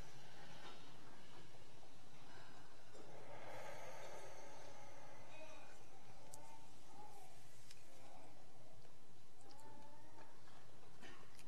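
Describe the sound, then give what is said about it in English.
A deep breath taken during a guided breathing exercise: soft, airy breathing sounds, faint and unbroken by talk. “Let's take one more breath”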